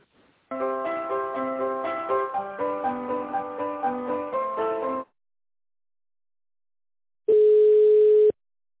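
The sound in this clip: Telephone hold melody of steady, shifting electronic notes plays while a call is being transferred. It stops, and after a pause a single steady mid-pitched ringback tone sounds for about a second.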